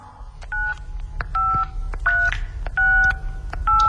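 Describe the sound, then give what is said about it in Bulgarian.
Telephone keypad dialing tones: five distinct two-pitch beeps in an uneven rhythm, separated by small button clicks over a low background rumble. “Ще се обадя по телефона на милата ми баба.”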